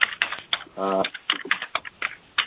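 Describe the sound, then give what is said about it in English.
Typing on a computer keyboard during an online meeting: rapid, irregular clicking keystrokes come in uneven bursts throughout, fairly faint, with no clear speech over them. “Can we ask people to mute if they're not talking? Someone's typing away.”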